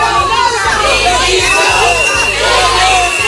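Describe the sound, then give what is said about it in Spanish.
Emergency doctors from the Ceuta hospital protest a minister's visit in Ceuta, jeering and booing. Many loud, overlapping shouts and voices form a raucous crowd noise. “Esos abucheos, no de cuatro exaltados que pasaban por ahí, sino también de sanitarios que llevan más de dos semanas dejándose el pellejo en el hospital de Ceuta”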